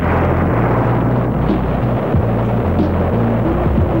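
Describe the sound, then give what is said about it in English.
A Russian hydrogen bomb explosion booms as a loud, continuous roar, a dense rumble that holds steady throughout with low droning tones beneath it. “The Russians have just exploded a hydrogen bomb.”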